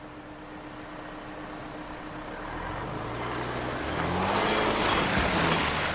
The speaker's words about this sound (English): Well, I figured I'd just keep the gate open and drive really fast and it'll all fall out.